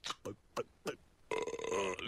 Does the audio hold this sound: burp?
yes